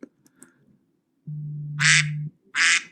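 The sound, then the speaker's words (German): A timer alarm set to a duck sound goes off with two loud, nasal quacks. The first sounds over a low steady hum and the second is short and clear, after a few faint clicks at the start. “Warum hast du den Timer auf Ente gestellt?”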